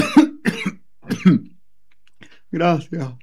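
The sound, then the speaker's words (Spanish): Someone coughs and clears their throat after choking slightly during an interview, in a few short, voiced bursts separated by brief pauses. “Disculpen, es que me he atorado un poco”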